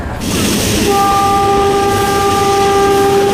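A train arriving at a station gives a steady, loud rumble throughout, and a sustained high tone joins it about a third of the way in and holds to the end.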